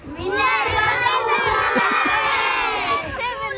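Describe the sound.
Schoolchildren at Minervaskolan shout together in a schoolyard at lunch break, a loud, continuous mass of overlapping high voices with cries rising and falling throughout.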